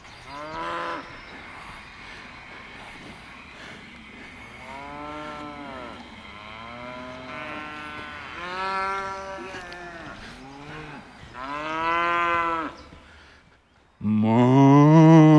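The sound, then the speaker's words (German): Light-coloured cattle mooing in a field, with many long, tonal lowing calls repeating one after another and a loud, full final call at the end. “Da oben sind so helle Rinder, das sind die, die hier so rumblöken.”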